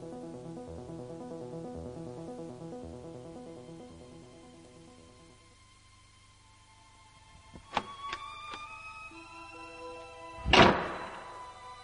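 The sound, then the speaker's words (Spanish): A door swings shut with a few sharp clicks and knocks, followed by one loud, heavy slam near the end. Soft, steady tonal sound plays before it. “Y esa puerta nos indica que vamos a entrar en zona de misterio.”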